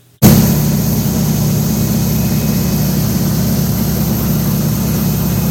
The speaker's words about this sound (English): I don't know how that DC-3 keeps flying. Those propellers are hardly moving. Just barely spinning through.